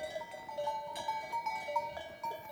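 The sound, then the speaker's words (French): Bells on a flock of ewes at a mountain pass about 1100 metres up on a September evening: many irregular metallic clanks and ringing tones over a steady background. “ce ne sont pas des purs sons de la nature que l'on entend là ce soir, mais bien un troupeau de brebis, les sonnailles d'un troupeau de brebis”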